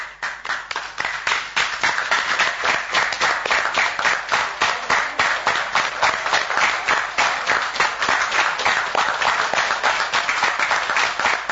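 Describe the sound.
Theatre audience applause after a stage play, a sustained wash of many hands clapping together at an even, steady intensity from start to finish.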